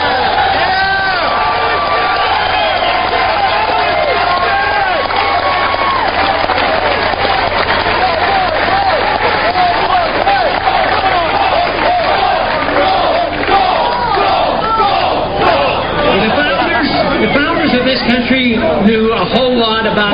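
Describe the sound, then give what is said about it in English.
University of Michigan students and others in a crowd chanting "gold" over and over in unison, a loud rhythmic group chant mixed with cheering and clapping that carries on throughout. “So what you heard was the University of Michigan students and others, I would presume, chanting spontaneously, gold, gold, gold, gold.”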